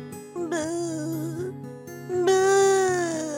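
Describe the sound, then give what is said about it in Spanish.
A voice actor imitates a weeping ant in a Spanish-language children's audio drama, with high, wavering, sustained sobs and wails that swell louder toward the end. “Pero se han encontrado con una hormiga que llora. Escuchemos lo que pasa.”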